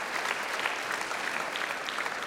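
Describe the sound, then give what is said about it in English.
Applause from a church audience, a dense, steady patter of many hands clapping continuously at an even level, with no clear voices rising above it. “So let's just give them one more round of applause.”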